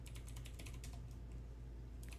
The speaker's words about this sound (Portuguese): Vou escrever aqui no chat aqui, ó.